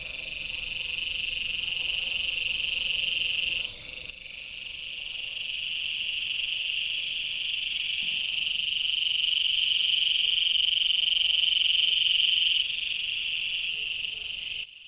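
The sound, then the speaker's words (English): Dense nighttime chorus of frogs and insects in the Amazon rainforest: a steady, shrill, high-pitched droning buzz layered with a fainter, even higher whine, loud and unbroken for the whole stretch, with one brief dip early on and no voices. “This is how the lungs of the planet sound at night.”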